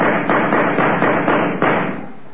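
A person with a bad cold blows their nose into a handkerchief: several loud, rough blasts of breathy noise in quick succession, the last one longest before it tails off.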